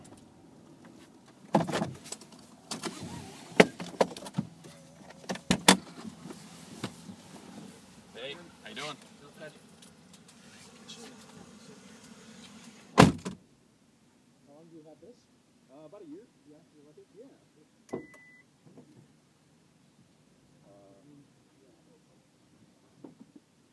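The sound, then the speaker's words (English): Car sounds as a driver makes a U-turn and double parks, then pops the trunk: scattered clicks and knocks, then a sharp, loud thud about halfway through, followed by quieter stretches with people talking. “I'm gonna just bust a U-turn and double park in front of this market here. And then we'll pop the trunk.”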